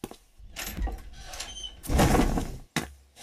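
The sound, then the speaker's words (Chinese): A cabinet door is opened in a few bursts of scraping and creaking. The loudest burst comes midway, followed by a brief silence and a sharp final knock. “打开柜门。”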